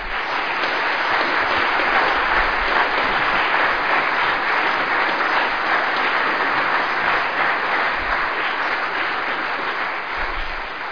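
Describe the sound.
An audience gives sustained applause to welcome a speaker, a thick, even roar of many hands clapping for about eleven seconds, easing slightly at the end.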